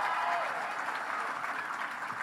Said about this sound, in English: So give Carol a big round of applause.